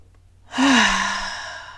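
A single deep breath during a guided sleep meditation: a sudden, airy sigh that swells and then slowly fades away as a long, soft exhale, heard alone without speech.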